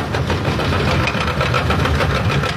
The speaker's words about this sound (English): That's the sound of a skid steer clearing up debris surrounding the 500,000-square-foot warehouse.